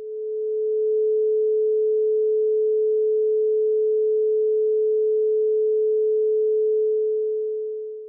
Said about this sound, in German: Ein Ton, der nur aus 432 Hertz besteht, aus diesen puren 432 Hertz, der würde jetzt nicht unbedingt zum Entspannen einladen. Also hör dir mal dieses Klangbeispiel an.